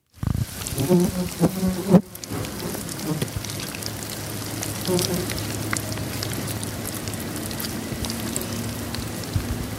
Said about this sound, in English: That's worms in his worm farm. What? I heard buzzing. How do worms buzz? Well, there was a fly around the worm.